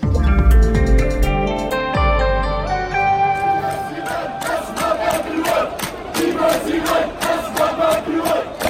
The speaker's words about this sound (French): votre bruit du monde est une manifestation en Algérie ce soir, mais une manifestation avec un mot d'ordre un peu différent de ces derniers mois. Cette manifestation défend le pétrole, l'or noir du pays. Oui, ces Algériens protestent contre la loi hydrocarbures.